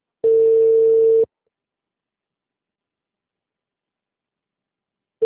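A telephone tone on a call that is not answered: one steady low beep about a second long, then about four seconds of silence before the next beep begins, with no voices.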